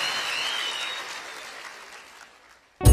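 Applause from an audience, a dense steady wash of many hands clapping that gradually fades out over a few seconds before a sudden loud burst at the very end.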